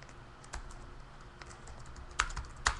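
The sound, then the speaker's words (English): Typing on a computer keyboard: a few sparse, quiet key clicks spread out with pauses between them, the last two sharper and louder. “When I'm really high, I can't type that good if I think about it.”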